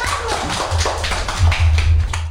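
Clapping for a young boy who wants to be a police officer, a loose scatter of light claps and taps over a steady low hum.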